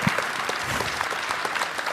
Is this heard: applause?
yes